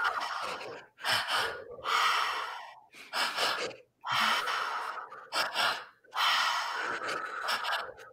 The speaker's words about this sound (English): Bringing that energy in, deep in the breath, keeping the breath going.